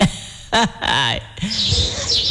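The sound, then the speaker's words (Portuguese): Birdsong rises as a few bright, high chirps and squawk-like calls, strongest in the second half, over a low background rumble. “Ó, o canto dos pássaros.”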